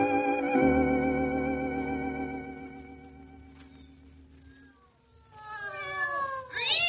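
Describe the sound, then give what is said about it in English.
Cats caterwauling in the middle of the night: long, drawn-out harmonic yowls that sag and quieten midway, then surge back into wavering, rising and falling wails. “Sounds as if something's getting murdered. Well, something will if it doesn't shut up. Blasted cats. Why do cats always choose the middle of the night?”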